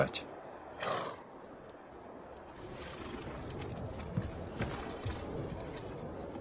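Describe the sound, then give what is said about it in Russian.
A horse trotting away, its hooves making a muffled clip-clop rhythm with a brief whinny, set in a dense, noisy film soundtrack where voices are also heard. “Он разворачивает коня и вместе с Тайчаром рысью скачет прочь.”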